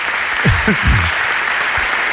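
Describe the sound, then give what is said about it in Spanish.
Audience applause greets the mayor of Pontevedra at a live event, a dense, steady wash of clapping with a brief low voice showing through near the start. “Podéis aplaudir también, ¿eh? Aquí hay para todos.”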